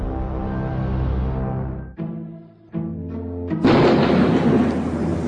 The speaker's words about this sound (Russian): Ну и гроза. Пойду окно закрою. Гром, а дождя нет.